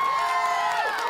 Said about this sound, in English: We've missed you, wonderful people. Can you give us a round of applause?